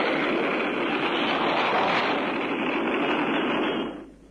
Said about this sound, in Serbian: We have ignition sequence start. The engines are on.